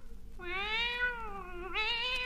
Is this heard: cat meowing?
yes